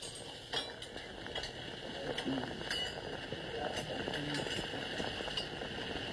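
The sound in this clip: A spoon beating cream in a bowl: many light, irregular clinks and taps, faint throughout.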